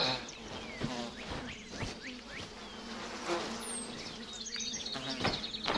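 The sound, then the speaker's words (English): Angry bees buzzing around a hive as they chase intruders: a steady, dense insect drone that holds at an even level throughout, with no talk. “They definitely sting. One's coming down. We have to move fast. They're on to us. I'll lead us to the next hive.”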